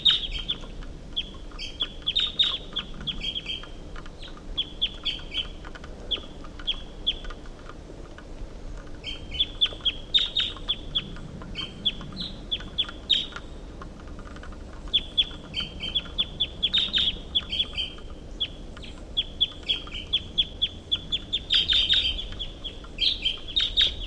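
A wild bird calls from the top of a tall pine, repeating short, high chirps in clustered bursts with brief gaps, fairly faint over a quiet background.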